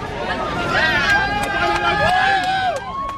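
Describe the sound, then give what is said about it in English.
Crowd murmur at a marathon finish line in Bethlehem's Manger Square: a continuous, fairly loud babble of many overlapping voices, with a few individual voices rising briefly above the steady hubbub. “here at the crowded finish line in Bethlehem's Manger Square, and we haven't seen this many visitors here in Bethlehem”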